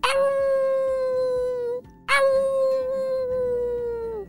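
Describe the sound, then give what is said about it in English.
Jackals howling at night: two long, loud, sustained howls, each sliding slightly downward in pitch, with a brief silent gap between them. “Whoa, those jackals sound like they're getting close.”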